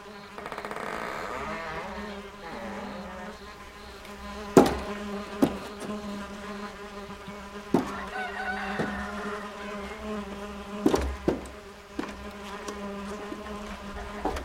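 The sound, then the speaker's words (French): A swarm of flies buzzing as clouds of them pour from the open doors and windows of houses: a steady, dense droning hum that continues throughout, with a few sharp clicks cutting through it. “En s'approchant des maisons, il s'aperçut qu'elles bourdonnaient comme des ruches. Par les portes et les fenêtres ouvertes, il vit sortir des nuages de mouches.”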